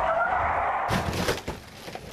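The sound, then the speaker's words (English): Tires skid on a road after a car speeds along: a sustained tonal squeal, then a sudden harsh, noisy burst that stays loud for over a second. “Man, I love driving fast on these roads. And I don't want to brag, but we're making really good time. Watch out!”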